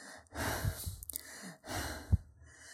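Out-of-breath panting from a woman worn out from spring house cleaning: a few heavy, rasping breaths in and out, ending with a sharper gasping intake.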